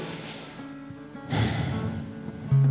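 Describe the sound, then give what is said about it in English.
Deep breath taken slowly: a soft, airy intake followed by a longer, louder breathy release, alone over faint steady background tones. “Let's just take a deep breath again.”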